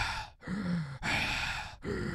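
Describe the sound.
A voice imitates a woman's wheezy, short-of-breath breathing with three raspy, labored breaths in a row, each cut off by a brief pause. The breaths are moderately quiet, and no words are spoken.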